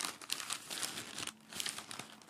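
Wrapping paper crinkles as a hand feels a small box beneath it, giving soft, irregular crackles and rustles in a few bursts that stay faint throughout.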